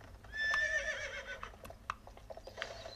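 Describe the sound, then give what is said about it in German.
A horse whinnies in a loud, high, wavering neigh near the start, followed by a few short, sharp knocks. “Da ist mein Pferd.”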